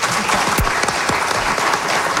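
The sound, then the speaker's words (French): Studio audience applause for guests, a steady, loud burst of many hands clapping that holds evenly for about two seconds without voices over it. “On peut les applaudir.”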